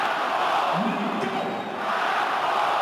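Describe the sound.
A football crowd roars at Parken Stadium in Copenhagen during a Denmark–Portugal match level at 1–1, with fans chanting the equaliser's scorer. The dense wall of many voices stays loud and steady throughout.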